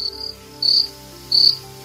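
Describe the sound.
Crickets chirp in three high, shrill trilling bursts, evenly spaced and fairly loud, with no voices over them.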